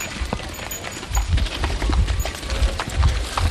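A horse-drawn cart collecting garbage through neighbourhood streets, with many rhythmic clip-clop hoofbeats over faint rattling and road noise.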